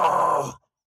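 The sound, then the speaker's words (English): One heavy, ragged, groaning breath from a creature chasing close behind lasts about half a second, fades, and drops into silence. “Heavy, ragged breathing told me the thing was right behind me.”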